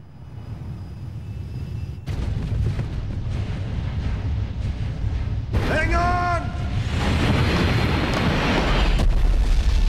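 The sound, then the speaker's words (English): A spacecraft crashes into compacted snow, rock and ice, belching fire as rocks cascade down onto it. A loud, sustained roaring rumble carries a brief burst of high screeching tones midway, then a rising wash of hiss and debris noise. “Jupiter II crunches into compacted snow, rock, and ice and belches fire. Its impact sends rocks cascading down on top of it.”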